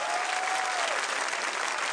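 Audience applause for a band at a live concert: a dense, steady wash of clapping that runs evenly for about two seconds without a break.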